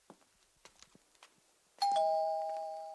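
A doorbell rings once at a front door, a bright chime that holds and slowly fades, preceded by a few faint, soft taps.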